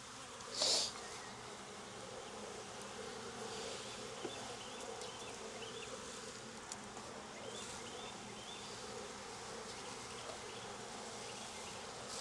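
Honeybees buzz in an open hive during an inspection, a steady dense drone that holds throughout, with a brief louder noise near the start and no talk.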